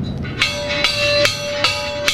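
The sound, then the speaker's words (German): An old ship's bell, once used to call passengers to meals, is struck in a steady, evenly spaced series. Each clear metallic strike rings on with a sustained tone that carries into the next. “Diese Glocke rief auf einem ganz anderen Schiff einst die Passagiere zum Essen.”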